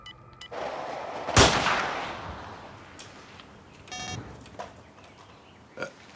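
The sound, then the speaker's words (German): A single loud rifle shot from a poorly zeroed hunting rifle aimed at a wild boar, with a long, decaying rumble. A few fainter thuds and a brief buzzing tone follow. “Das Gewehr ist schlecht eingeschossen. Das schießt ja, wohin es will.”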